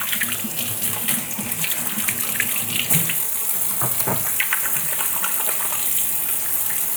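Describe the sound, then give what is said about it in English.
Running tap water gushes steadily as hands are washed after handling raw burger meat, a continuous splashing hiss with no pauses. “All right, wash our hands because we are working with raw meat.”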